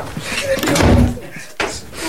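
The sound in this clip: A door being unlocked and opened: a heavy clunk is followed shortly by a sharper click, both loud against a quiet background.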